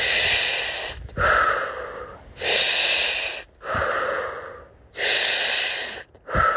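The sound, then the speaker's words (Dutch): Slow nasal breathing in and out during a guided breathing exercise: about three long, loud breaths alternate with softer ones in a steady rhythm, with no talking. “adem nog 1 keer in via je neus ook weer uit”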